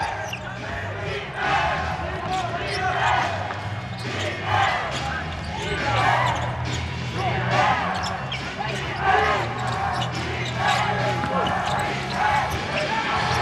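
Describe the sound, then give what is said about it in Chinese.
A basketball is dribbled across half court near the end of a game, giving many steady, thudding bounces under ongoing talk. “要巴西欧把球慢慢的带过半场。”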